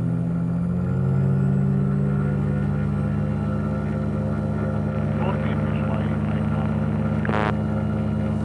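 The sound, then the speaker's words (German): A motor glider's engine drones loudly and evenly as it is run up toward 6300 rpm, a sustained buzzing hum that stays steady for the whole stretch. “Beschleunigen auf 6300 Umdrehungen.”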